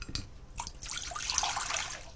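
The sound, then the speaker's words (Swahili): Water pours in a short, faint, steady rush as one cup, about 200 ml, goes into a saucepan holding two tablespoons of soy sauce and two teaspoons of sugar. “Kisha viweke kwenye sufuria pamoja na maji kikombe kimoja, sawa na mililita 200.”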